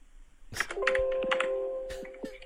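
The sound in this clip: Computer keyboard typing heard through a phone line on an accidental call: a few sharp, irregular key clicks over a steady low tone.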